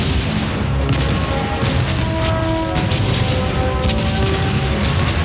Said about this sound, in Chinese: 我们76毫米口径的火炮每分钟可以发射25次。